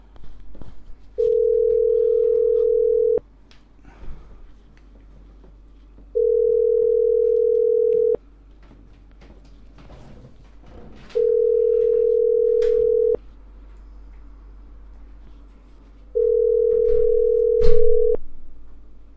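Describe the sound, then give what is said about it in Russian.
A telephone ringback tone sounds while a call to Alfa-Bank connects. Four steady, low-pitched beeps each last about two seconds, separated by roughly three-second gaps, over faint background noise. “А в Альфа-банк сейчас позвоню.”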